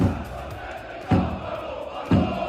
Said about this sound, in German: Das sind die Fangesänge des Gegners, also der Cottbusser Fans